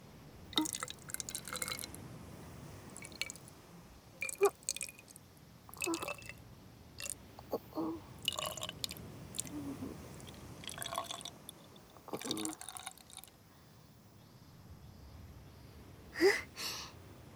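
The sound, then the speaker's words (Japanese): Seawater is refilled into a mini spray bottle, with faint, intermittent trickles, drips and small wet splashes coming in scattered bursts, separated by short quiet gaps. “使い切ってしまって、そうしたら海水をミニスプレーボトルに詰め替えて、”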